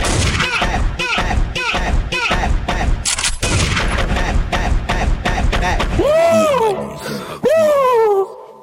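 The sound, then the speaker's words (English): Gunshot sound effects dropped into a hip-hop promo mix: many sharp, loud bursts fire in a rapid, steady rhythm, then give way to sweeping whistle-like tones that rise and fall. “you forgot the gunshot”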